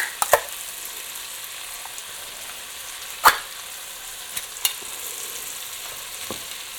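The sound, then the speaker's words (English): Sausages with spices and vegetables, including peppers, frying and being stirred in a pan: a steady crackling sizzle with a few sharp scrapes and knocks from the stirring. “Right, I'm just going to stir those in with the sausages and the spices and vegetables. You can hear now the sand has got a lot drier, so there's quite a lot of juice in there.”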